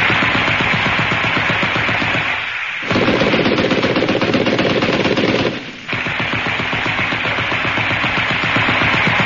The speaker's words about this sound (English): Now, fire. Bunny and Claude faced a dozen armed policemen.